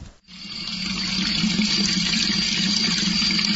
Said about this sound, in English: here's the sound of water again